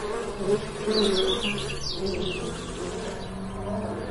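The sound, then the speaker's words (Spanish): Bees buzz around an agitated honeycomb on a cave ceiling, a dense, steady drone with higher whining tones weaving through it. “ve un panal en el techo de la caverna que parece muy agitado por sus inquilinas y guardianas.”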